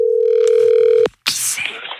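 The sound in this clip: A telephone dial tone sounds during a radio prize-draw call: a loud, steady hum that stops abruptly with a click, then a burst of noisy clatter and rustling.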